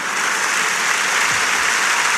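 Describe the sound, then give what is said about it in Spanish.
At a political rally, a standing audience gives loud, dense applause that stays steady and continuous for the whole stretch. “Vuelven a ponerse de pie la inmensa mayor parte de los asistentes con este aplauso.”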